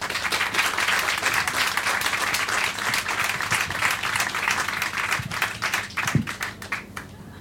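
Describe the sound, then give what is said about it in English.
Audience applause welcomes a Glasgow band to the stage: a thick, continuous wash of clapping with scattered crowd noise that stays strong, then thins and tapers off near the end. “Today we have an absolutely wonderful band to welcome to the stage. Can you please give it up for the Glasgow band, A New International?”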